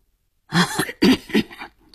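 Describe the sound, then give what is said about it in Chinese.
A man who holds a cigar coughs, giving a few rough, throaty bursts in quick succession. They are loud, harsh and heard alone. “他咳嗽了两声”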